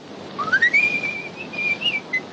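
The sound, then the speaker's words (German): A man whistles cheerfully as he walks away. The high, clear tune slides upward at first, then holds and wavers through short bright notes, with no voices. “Fröhlich pfeifend macht sich Harry davon.”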